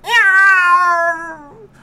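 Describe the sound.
A human voice imitates a cat with one long, loud, drawn-out meowing yowl whose pitch sinks slowly, then gives a short, softer tail note.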